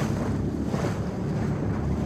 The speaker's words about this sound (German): Ich dachte, wenn wir schon zusammen diesen Fluss hier hochfahren, dann...